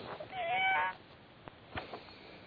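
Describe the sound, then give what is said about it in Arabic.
A cat meowing over a telephone line: one drawn-out, wavering meow with a thin, band-limited phone quality, followed by a few faint clicks and soft line noise. “أنت ابني إيه جايب قطة على التليفون ولا جايب إيه؟”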